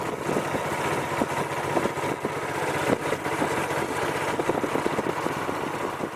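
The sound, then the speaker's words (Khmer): Motorboat engine on a trip across floodwaters to an old submerged village: a steady, rough mid-pitched drone with rapid pulsing that runs unbroken throughout, with no voices. “លោកខឿនបានធ្វើដំណើរតាមទូកម៉ាស៊ីនទៅមើលភូមិចាស់របស់លោកដែលត្រូវបានទឹកលិច”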